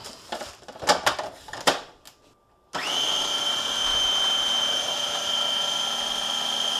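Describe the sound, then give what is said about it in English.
A food processor mixes sugar and eggs on a medium setting. A few brief clatters come first, then the motor starts with a loud, steady, high whir that runs without a break to the end. “I'm not using a particularly high setting here. I'm about halfway up my dial on the food processor.”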